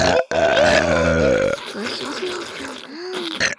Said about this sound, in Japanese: 私たちのゲップで興奮してね。